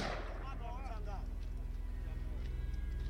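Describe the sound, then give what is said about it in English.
Rapid rifle gunfire from a war video: a steady, low, rattling stream of shots runs through the whole clip, with a voice heard briefly near the start. “Just keeps firing. Even though they're dead bodies, this guy just wants to shoot them.”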